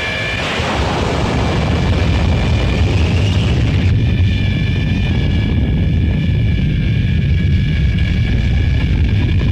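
Rocket engines fire at launch after a countdown, a loud, sustained roar with a heavy low rumble and broad hiss that carries on without a break and shifts slightly in tone partway through.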